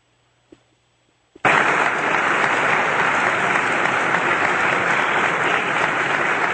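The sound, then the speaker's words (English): Audience reaction as a performer in a sheriff costume with spurs walks on stage at a Sheriff Days event: two faint clicks in near-quiet, then a sudden burst of loud, sustained applause and crowd noise that carries on unbroken. “I have a recording of me walking on stage. This is last year at the old Sheriff Days. You're going to hear me walking out. You'll very clearly hear the spurs. And again, I'm in the sheriff getup, and you'll hear the audience's reaction.”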